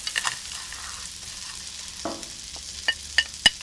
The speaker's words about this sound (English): And now we are ready for the arborio rice. 350 grams. Stir it well.